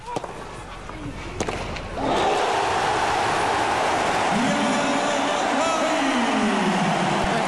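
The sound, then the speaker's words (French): A tennis crowd on centre court erupts at match point. A few sharp hits sound over a quieter murmur, then a sudden loud roar of cheering voices holds steady to the end. “je vous propose d'écouter sur le court central tout à l'heure la balle de match, la joie du public et la première réaction de Diane Paris.”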